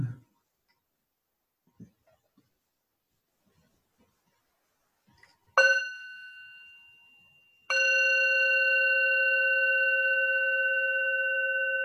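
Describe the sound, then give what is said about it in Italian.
A bell is struck twice: the first strike rings out and fades over about two seconds, and the second rings on steadily with bright, clear overtones until the end. Nothing else is heard except a few faint, soft knocks before the bell. “Ascoltiamo un suono di campana.”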